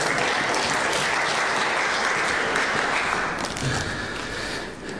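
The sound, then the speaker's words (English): Audience applause as a guest is called forward, a thick, continuous clatter of many hands that holds loud for most of its length and eases slightly toward the end, with no voices. “You give Katie a big round of applause.”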